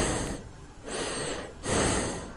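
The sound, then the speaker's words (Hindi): Heavy breathing in a dark room, with three long, breathy rushes of air in slow succession, the last one the loudest. “एक अंधेरे काले कमरे में सार्थक घिरा हुआ था केवल एक आवाज से, जो हर एक सेकंड और तेज होती जा रही थी, वही इसी के सांस लेने की आवाज।”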